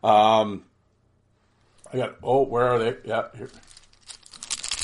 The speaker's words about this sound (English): Yeah, we're gonna open some hockey cards. I always like opening the hockey cards in an audio only format.